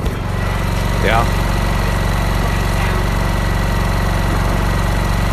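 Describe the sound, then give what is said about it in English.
A generator engine runs with a steady, loud, droning hum and a low, even throb that does not change. A single short word is spoken briefly over it near the start. “That's the sound of a generator.”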